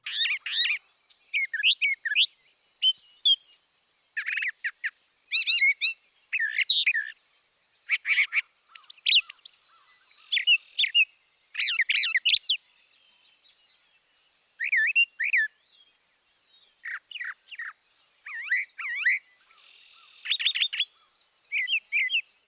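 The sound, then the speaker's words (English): Brown thrasher song: many short, high, varied phrases, often repeated in pairs and separated by brief pauses. The song is heard alone and continues throughout. “Now listen to the brown thrasher, and remember to count the number of repetitions.”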